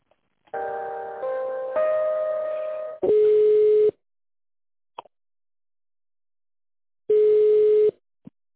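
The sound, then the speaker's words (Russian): Telephone tones sound while a call is being transferred: a brief multi-note electronic tone sequence, then two steady mid-pitched ringback beeps, each under a second and separated by silence, with a couple of faint clicks. “Секунду, переведу звонок.”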